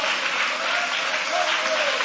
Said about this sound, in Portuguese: podem aplaudir a Deus com alegria